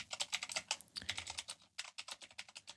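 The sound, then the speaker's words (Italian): Rapid typing on a computer keyboard: many irregular, crisp keystrokes in quick bursts with a brief pause partway through, with no talking. “Scusate, intanto eh, typerò in giro in questo, in questo podcast perché almeno eh, vi darò gli indirizzi giusti.”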